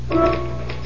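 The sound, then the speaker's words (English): Typewriter keys clack in a few quick, dry strikes as race results are typed, heard over a steady low hum. “Type me a few winners. Type you what? A few winners.”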